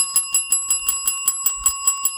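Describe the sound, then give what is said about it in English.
A small bell rings in many rapid, evenly spaced strikes over two seconds. A bright, sustained metallic tone holds steady beneath the repeated hits, and no voices are heard. “I can't find the bell. Where's the bell? Oh, hold on, I got it. It's right here.”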